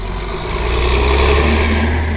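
A car engine drones steadily as the car passes slow-moving dump trucks on a road at a ski resort construction site in Vermont. The hum stays even and fairly loud throughout.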